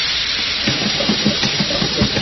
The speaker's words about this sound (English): Ah, the steam is up, and it's ready to go.